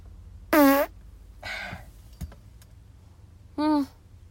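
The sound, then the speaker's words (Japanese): Two short, buzzy farts, the first about half a second in and the second near the end, each loud and brief. Faint rustling and a single click fall in the quiet gap between them. “おならが出そうなので出します。えい、”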